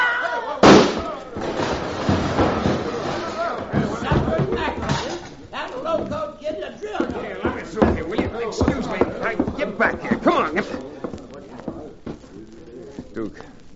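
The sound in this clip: A single sharp gunshot cracks out during a tense quarrel over a gambling game and its pot, a loud, abrupt burst near the start, followed by a steady, busy din of voices.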